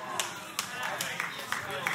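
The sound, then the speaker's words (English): Scattered claps from a handful of listeners during a sermon. The sharp, sparse claps are spaced unevenly, and a voice keeps talking over them. “For the four of y'all who are clapping, I'm gonna keep preaching.”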